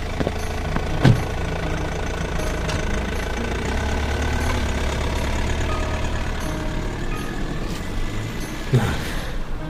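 A car engine rumbles steadily and loudly as the vehicle drives away, a dense low drone that holds throughout with a couple of brief knocks.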